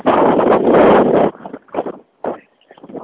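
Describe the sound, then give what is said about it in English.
Strong, brisk wind buffets the microphone with a loud, steady roar for over a second, then breaks into short gusty bursts with brief near-silent gaps. “Wow, that wind probably sounds terrible. It's quite brisk right at the moment.”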